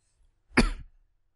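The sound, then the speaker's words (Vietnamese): One short, sharp cough from an adult voice, a single burst that peaks and fades within about half a second, with near silence on either side. “Mọi người thông cảm nhé, ho quá.”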